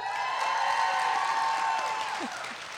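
Applause and cheering from a live audience at a convention stage show: a dense, steady wash of clapping with a sustained whooping tone riding on top, easing off slightly near the end.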